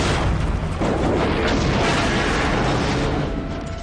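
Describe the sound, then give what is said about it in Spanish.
A helicopter explodes in a large fireball after gunfire pierces its chassis, producing a loud, dense, rumbling roar that fills the whole clip and eases slightly toward the end. “Al tiempo que Scafaro se desmorona, el helicóptero explota en una gran bola de fuego.”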